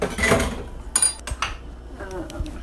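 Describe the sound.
Clatter of a skillet and kitchen dishes being handled while cooking fried onions: a few knocks and clinks, moderately loud, with brief pauses between them.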